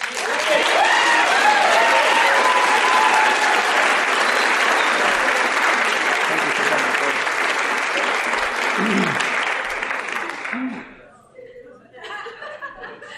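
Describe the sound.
Applause from a large group welcoming a speaker at an evening meeting: dense, steady clapping holds loud and even for about ten seconds, then quickly thins out and fades into near quiet with a few faint scattered sounds.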